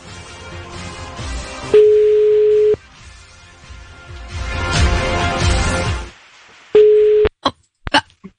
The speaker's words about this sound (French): Si ça sonne chez toi maintenant, c'est un numéro privé, hein, sache-le. Est-ce que ça sonne? Ça sonne.